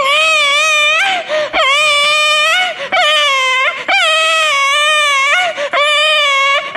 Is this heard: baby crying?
yes